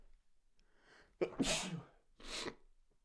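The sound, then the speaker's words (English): A single loud, sudden sneeze follows a quiet breathy intake, and a second shorter breathy burst comes after it, with no talk around it. “oh my goodness, I hope you guys said bless you. I really do.”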